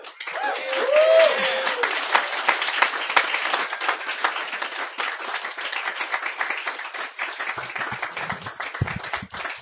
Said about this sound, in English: Give him a hand.